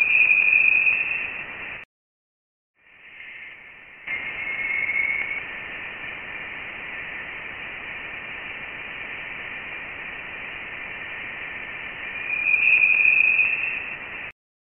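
Thin whistling tones in a Voyager recording of interstellar plasma, heard briefly at the start and again near the end over a steady hiss, with a short dropout to silence early on.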